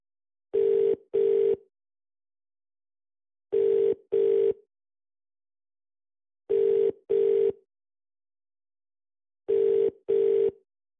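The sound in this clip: Ringback tone of an unanswered telephone call: four evenly spaced pairs of steady, mid-pitched electronic rings, eight tones in all, with silence between the pairs.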